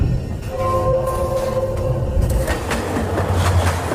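A train rolls along the rails with a steady, loud rumble and rhythmic clatter of carriage wheels that holds evenly from start to finish.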